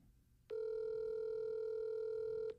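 A telephone call rings out with one steady, mid-pitched ringback tone lasting about two seconds before it cuts off, with no voices over it.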